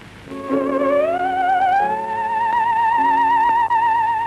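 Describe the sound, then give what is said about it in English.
Theremin played solo: a wavering electronic tone glides smoothly upward, then holds steady with a marked vibrato over a soft sustained lower backing. “So if you haven't seen someone play theremin before, it's a thing to behold.”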